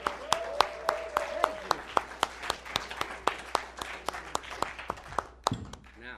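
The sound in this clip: Applause as a pastor is welcomed to the stage: a thin, steady run of sharp claps in an even rhythm for about five seconds, then stopping.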